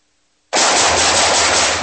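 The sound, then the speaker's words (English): Automatic gunfire bursts out after half a second of silence, a loud, dense, unbroken stream of rapid shots that runs to the end. “Nice shooting.”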